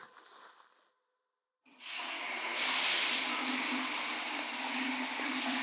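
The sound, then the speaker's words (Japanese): Shower water sprays over fizzing, crackling foam during a rinse. A brief soft sound and a silence come first, then a steady hiss switches on and grows louder, holding to the end. “シャワーをかけたらさらにパチパチしてますね。”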